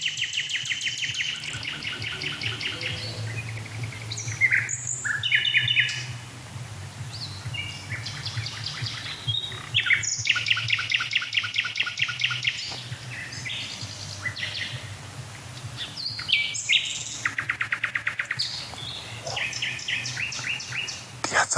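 A blackbird sings in the manner of a nightingale, with many varied chirps, whistles and rapid trilled phrases separated by short pauses, over a steady low hum.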